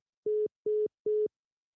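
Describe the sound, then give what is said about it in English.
Telephone line tone after a caller hangs up: three identical short, steady mid-pitched beeps at an even rhythm, separated by silence. “The caller has hung up.”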